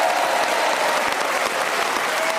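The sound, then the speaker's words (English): A studio audience applauds a panel game winner with dense, steady clapping that stays loud throughout and has no voices over it. “So a round of applause for our winner, Sue Perkins.”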